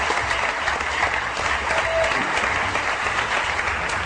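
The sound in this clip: Audience applause greeting two guests at a comedy talk show, a loud, sustained, dense clapping that stays level throughout without a break.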